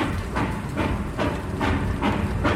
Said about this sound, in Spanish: De pronto el tren caminaba de nuevo. La gente se miraba sonriendo, acomodándose, menos mal. Y yo escuchaba el lenguaje de las ruedas.